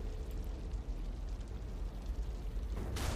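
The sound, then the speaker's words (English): A voice imitates a gunshot with a long, rough, breathy roar of noise that ends in a sharper hissing burst. “Give me a real gunshot. Give me a good one.”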